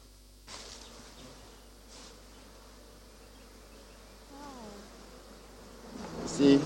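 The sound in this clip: Honeybees buzzing in an opened beehive as its top bars are lifted out, a steady, dense hum that continues throughout, with a brief voice-like sound partway through and a louder burst at the end.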